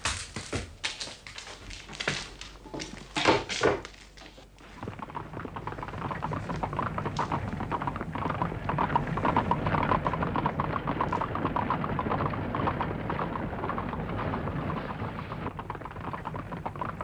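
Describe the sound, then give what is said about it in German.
Boarding of a horse-drawn carriage: a few sharp knocks and the thud of the door shutting in the first seconds, then a steady, loud clatter of hooves and rolling wheels that continues to the end. “Kommen Sie in meinen Wagen. Steigen Sie ein, schnell.”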